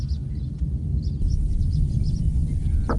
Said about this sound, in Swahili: Sauti za ndege, viumbe hai, wanyama pori, upepo na sauti za mazingira halisi husikika zaidi katika eneo hili maarufu la Engaruka.